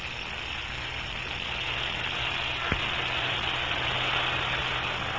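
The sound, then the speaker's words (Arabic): A car engine runs with a steady, even hum that holds constant throughout, broken only by a single sharp click midway, with no voices. “ما ذاك؟ يبدو أنه صوت سيارة”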